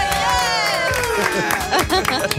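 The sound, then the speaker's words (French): A studio audience at a radio game show cheers for a contestant, with loud whoops and shouts whose pitch slides downward over a bed of clapping. “On l'acclame, Marie-Joëlle.”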